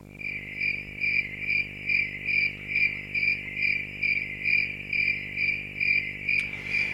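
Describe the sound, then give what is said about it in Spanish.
Crickets chirp in a steady, even rhythm of many high-pitched pulses, loud and alone, with one brief click near the end. “Pues efectivamente, esos son los grillos. Iba a decir el canto del grillo.”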